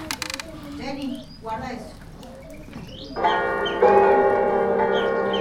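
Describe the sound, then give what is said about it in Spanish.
Bells ring in a school setting, a bright, sustained metallic clang that enters after a few seconds of children's voices and swells louder partway through. “¿Es un piano o son campanas? Campanas.”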